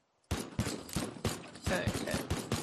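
A shotgun fires in a video game: a rapid series of sharp, loud blasts with short gaps, each shot cracking and decaying quickly into the next.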